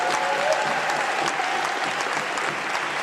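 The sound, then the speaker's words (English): An audience at a mass meeting applauds in a sustained burst, with dense, even clapping and no pause throughout. “We ought to give a big hand to that. They ought to give a big hand and welcome them.”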